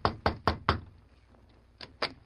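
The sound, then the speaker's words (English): Knuckles rap on a room door: four quick, sharp knocks in an even rhythm, a pause of about a second, then two more knocks, each crisp and clearly audible alone. “The two men stopped in front of the room door. The Lone Ranger hesitated a moment, then knocked.”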